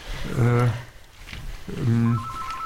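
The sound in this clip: A telephone rings with an incoming call from a listener: two sustained tonal ring bursts separated by a short pause.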